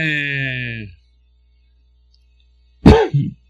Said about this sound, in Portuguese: estou com resquício ainda daquela minha tosse, então vocês me desculpem aí de vez em quando, tá?